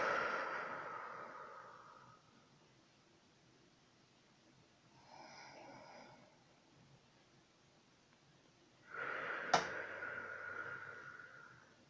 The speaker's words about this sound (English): Breathe in deeply through the nose. And out through the mouth.